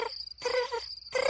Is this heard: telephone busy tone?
no